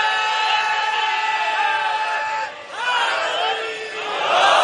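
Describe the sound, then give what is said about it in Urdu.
A crowd at a Shia religious gathering shouts the Nara-e-Haidari chant. Many voices hold long, drawn-out cries, the sound dips briefly midway, then rises again into a second sustained burst. “ایک اور نعرہ حیدری کہہ دو جلدی سے”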